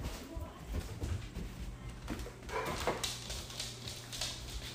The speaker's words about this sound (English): He's such a good dog. He does whatever you tell him.